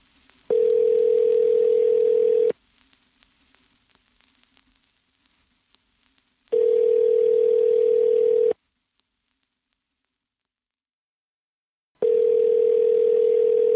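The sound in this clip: Telephone tone on the line while a call is being placed: three steady, loud, buzzing tone bursts of about two seconds each, separated by longer gaps that are silent apart from a faint crackle after the first burst.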